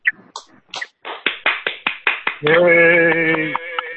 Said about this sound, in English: I think the entire board should give them a hand of approval at this point.